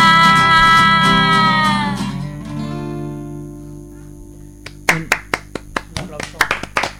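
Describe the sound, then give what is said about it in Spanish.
Applause from an audience after a sung performance, a burst of scattered claps starting as a held vocal note fades, then building into irregular clapping. “Un aplaudimiento.”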